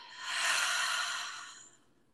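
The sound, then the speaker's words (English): A deep belly breath is exhaled slowly during a guided breathing exercise, a soft airy rush that swells and then fades over about two seconds. “And one last full deep belly breath in. And out.”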